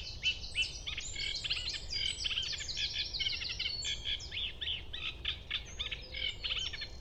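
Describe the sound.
A bird begins its dawn song about five minutes before sunrise, a quiet but busy stream of high, rapid chirps and trills, richly varied and modulated, running almost without pause.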